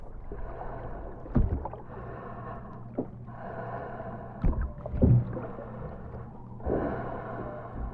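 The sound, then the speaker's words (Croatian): Waves breaking on a shore with loud breathing: a steady wash of water broken by a few heavier surges and bursts that stand out above the low, continuous rumble. “Čujem razbijanje valova o žalo. Moj dah, koji inače ne čujem, postaje glasan.”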